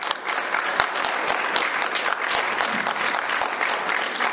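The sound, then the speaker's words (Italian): An audience applauds at a lecture on spirituality, a continuous, dense wash of clapping at moderate volume with a few crisper individual claps popping out. “Benissimo. Facciamo un applauso.”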